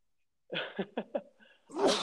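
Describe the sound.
A person sneezes: a few short, sharp catching breaths in quick succession, then one loud, explosive burst of sneeze, with no other sound around it.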